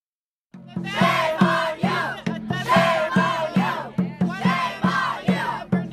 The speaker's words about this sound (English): That's the sound of protest last night in Phoenix, Arizona, where immigration officials arrested Guadalupe Garcia de Arreos.